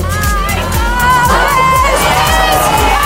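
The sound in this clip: A concert crowd at a pop singer's show shouts out a new song's lyrics for him after he forgets them mid-performance, a loud, steady mass of voices with a regular low throb beneath it.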